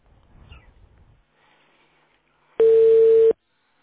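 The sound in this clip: A telephone line tone sounds while a callback to a customer is being connected: one steady, loud beep lasting under a second, following faint low background noise.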